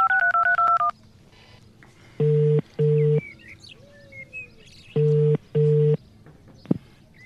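Telephone keypad tones are dialed in a quick run, followed by ringback tones as a call goes through to a cell phone. The ringback comes as two double-burst rings separated by a quiet pause. No one speaks.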